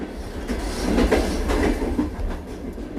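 A train rolling along the rails gives off a steady rumbling roar with clickety-clack wheel rhythm, swelling slightly through the middle and easing off toward the end, with no voices.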